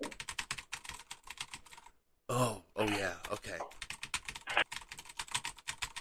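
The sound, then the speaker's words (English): Rapid, loud clacky typing on a computer keyboard, dense key strikes that pause while a voice speaks briefly, then the clattering resumes under further short talk. “his maniacal DM typing on his loud clacky clacky keyboard is even”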